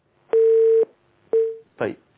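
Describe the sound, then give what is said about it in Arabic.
Telephone line tones as an incoming call connects on air: a steady beep of about half a second, a shorter matching beep, then a brief noisy burst. “معنا اتصال.”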